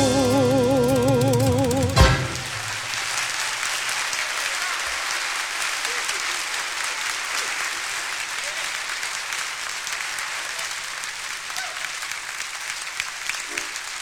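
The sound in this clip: Audience applause erupts at the close of a tango song performed live by a contemporary tango group; the final notes cut off after about two seconds, followed by steady, dense clapping that runs unbroken for roughly twelve seconds.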